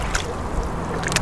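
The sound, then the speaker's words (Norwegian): Water washes and sloshes around a small rubber boat on the Oslofjord in a steady, unbroken rush with faint splashes and no talk. “bitte liten båt, gummibåt här i Oslofjord med sjölist.”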